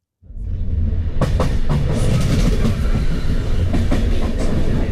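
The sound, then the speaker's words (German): A regional express train rolling across the Po plain near Bergamo, heard from inside a carriage: a loud, steady rumble with clickety-clack wheel beats rising out of near silence and continuing throughout. “Der Regionalexpress rollt durch die Po-Ebene.”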